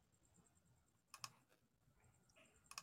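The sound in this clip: Keyboard and mouse clicking on a computer, heard as two brief clusters of sharp, faint clicks separated by quiet stretches of low background noise.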